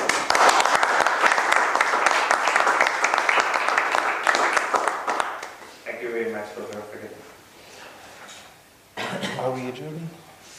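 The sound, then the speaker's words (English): A lecture audience applauds a visiting professor with dense, steady clapping that lasts about five seconds and then gives way to a person talking. “And please give uh, Professor Rallo a hand.”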